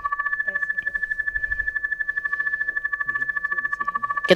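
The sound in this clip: A telephone rings on the line as a radio show tries to reach a caller. The rapid, steady warble of two bright tones pulses evenly throughout and ends with a brief abrupt burst.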